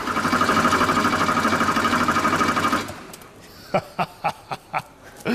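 A German car engine cranked by its starter: a fast, regular mechanical whirring for nearly three seconds that cuts off abruptly, followed by a short series of sharp, evenly spaced clicks.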